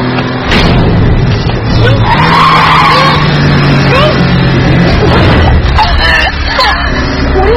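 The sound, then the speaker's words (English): Tires skid hard as a car drives fast, with a loud, continuous roar of engine and rubber and squealing streaks running through most of the stretch. “Well, then I'm going to drive your blood source off Wickery Bridge.”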